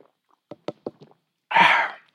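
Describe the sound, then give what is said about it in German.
A bottle of Tegernseer Hell lager is opened: a few light clicks and taps come first, then a short, bright fizzing hiss that fades, with no talk. “Und ich habe das beste Lager der Gegend, das ist das sogenannte Tegernseer Hell. Das öffne ich jetzt. Und jetzt trinke ich auch davon.”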